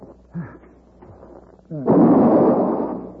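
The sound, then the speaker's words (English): A single rifle shot gives one loud blast with a long, slowly fading tail, after brief faint vocal sounds. “I've got him. He's dead. Yeah. Paladin, I shot the Redskin.”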